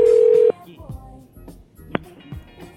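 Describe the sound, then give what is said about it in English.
A steady telephone tone sounds for about half a second, then gives way to quieter voice-like sounds with one brief sharp blip. “Come on, people. Pick up the phone.”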